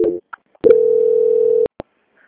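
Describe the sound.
A single steady electronic tone from a bank's phone line as a call is transferred to quality control, lasting about one second at an even pitch, with a few short clicks around it and no talk over it.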